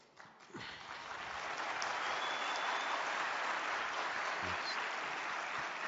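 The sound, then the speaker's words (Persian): Audience applause at a gathering, greeting a respected cleric: dense, steady clapping that swells over the first second, then holds loud and even to the end without a break. “این الان برای حاج آقا دست زدید یا برای من دست زدید؟”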